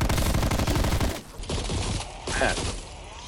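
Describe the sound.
A light machine gun fires in a zombie video game: a loud, rapid, continuous burst for about a second, then softer clattering and a few further short noisy bursts.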